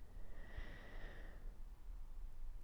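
A faint breath drawn in, a soft airy inhale lasting about a second, quiet and alone over a low background hum.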